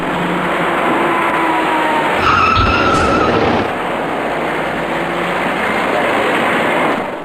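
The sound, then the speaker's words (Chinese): A silver passenger car speeds along a multi-lane road and strikes a cyclist stopped in the innermost lane. A brief burst of squealing tones and a low thud rises out of steady loud road noise. “转瞬过后，这位骑车人被一辆快速开来的小客车撞翻在路面上”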